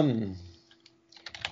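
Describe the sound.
Typing on a computer keyboard: a short burst of light, irregular clicks near the end, after a brief moment of speech and a steady low tone.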